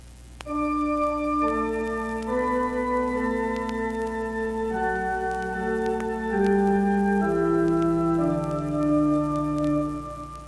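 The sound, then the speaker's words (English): Organ melody played alone on a manual 16-foot stop combined with 8- and 4-foot stops: smooth, sustained legato notes moving stepwise, rich in overtones, at a steady, fairly loud level. “This manual 16-foot stop may also be used with an 8-foot and 4-foot stop to play a melody alone. It will then sound like this.”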